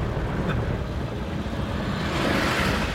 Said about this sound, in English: And now I am driving in a field.